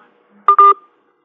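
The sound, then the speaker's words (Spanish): Disconnect beeps from a dropped telephone call: two short, steady electronic tones in quick succession, loud and clean with nothing else around them. “Bueno, se nos ha caído la llamada con el ingeniero”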